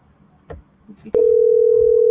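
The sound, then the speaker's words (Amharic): A telephone line tone on an outgoing call: a steady, loud single-pitched tone begins abruptly after a few soft, faint noises and holds unbroken to the end. “ተደውሏል ማለት ነው። ይህ እየጠራ እና”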